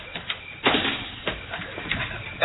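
A door being opened at home: a few muffled clunks and scraping knocks, faint under a steady hiss.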